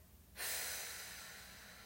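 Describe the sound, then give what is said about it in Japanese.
A long, full exhale at the end of a relaxation breathing exercise begins abruptly as a strong airy hiss, then trails off slowly and evenly, with no other sound. “吐き切るはい最後吸って背筋と笑顔キープです吐きます”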